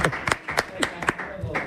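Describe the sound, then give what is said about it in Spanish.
Sharp hand claps ring out in a steady rhythm, several distinct crisp strikes spaced evenly apart at a moderate level. “Mira, cómo te aplaude la gente, ¿eh?”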